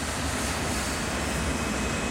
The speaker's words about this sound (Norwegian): Kaptein Van Santen starter standardprosedyren som alltid finner sted før flyet tar av, og hever og senker gasspedalen sakte.